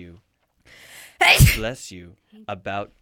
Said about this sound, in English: every time that you sneeze, that's one of your ancestors sneezing.